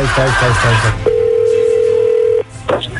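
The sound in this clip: A telephone dial tone sounds while a call is placed: a loud, steady single hum holds for just over a second, then cuts off. A voice talks just before it.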